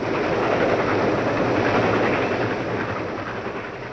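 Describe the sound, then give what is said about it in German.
A train rushing past, a dense, continuous rumbling roar that stays loud throughout and eases slightly toward the end, with no voices. “Und der Zug brauste vorbei.”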